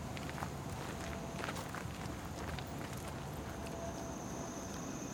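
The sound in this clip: Footsteps walk outdoors on a walking tour in New York City, soft and irregular over a steady, hissing background of outdoor noise, with no talking.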